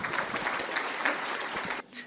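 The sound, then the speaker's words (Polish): Applause from a conference audience: dense, steady clapping for about two seconds, dipping briefly near the end. “Serdecznie państwu dziękuję. Gorące brawa.”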